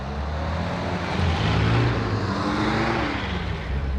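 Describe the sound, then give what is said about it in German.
Engines of three cars driving away at night without lights make a continuous low rumbling roar that swells slightly in the middle and stays steady, with no voices. “Die Motoren werden angelassen und die drei Wagen fahren ohne Licht davon.”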